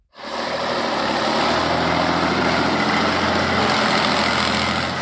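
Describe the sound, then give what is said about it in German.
The engine of a tank built in 1984 roars steadily while the tank is driven. The loud, unbroken mechanical drone keeps a constant level from start to end, with no voices. “Es ist sein erstes Mal. Chris Model lenkt einen Panzer, Baujahr 1984.”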